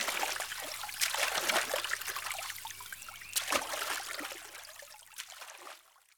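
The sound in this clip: Water splashes and trickles as a boat is paddled, with irregular sloshes and drips that thin out and fade toward the end.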